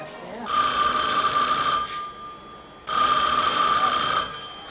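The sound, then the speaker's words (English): An electronic telephone ringing on a hotline: two steady, bright, high-pitched ring bursts of about one and a half seconds each, separated by a brief pause. “Ringing, you got to answer me when I'm ringing.”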